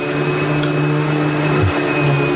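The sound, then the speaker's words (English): A vacuum cleaner runs over a red carpet, a steady loud droning whine with a constant tone that dips briefly before settling back to its even hum. “And there you see, and this is a real picture, Kari Lake is vacuuming the red carpet.”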